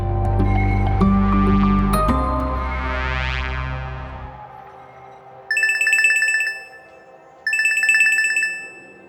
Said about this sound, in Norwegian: Jeg prøver å ringe Yi Vinto.